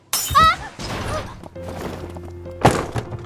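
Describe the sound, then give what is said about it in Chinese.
A plate smashing: a sharp crash with bright ringing ceramic shards, then further clattering and thumping sounds. “突然有盘子摔碎的声响”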